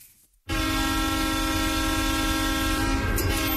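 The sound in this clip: A train horn sounds as a radio jingle effect, a steady sustained blast with rumbling rail noise under it. It comes in abruptly after a brief quiet start and holds loud to the end.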